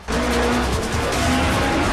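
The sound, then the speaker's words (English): Two cars, one a Mitsubishi Evo, skid round a corner between racks of boats in a boatyard. A loud, steady roar of engines and tyre noise runs throughout, with faint squealing tones over it. “Brian and Pierce skid round the corner past more racks of boats.”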